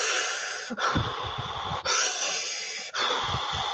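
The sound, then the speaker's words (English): Breathing through a gas-and-air (Entonox) mouthpiece during labour: four long, loud, hissing breaths, each split from the next by a brief pause, over a low rumbling undertone. “using the gas Enterox means that you have to suck on the mouthpiece, and that's actually really good. You bite down with your tongue and you just”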